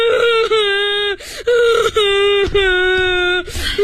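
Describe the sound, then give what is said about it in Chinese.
A child cries loudly in long, drawn-out, sustained wails. Short catches of breath and sobs break up the wails. “咱们不哭了啊”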